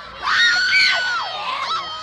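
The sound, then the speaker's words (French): A crowd of young fans screams at an event attended by royalty, making a loud, shrill wall of sound that holds without any break. “Les cris continuent.”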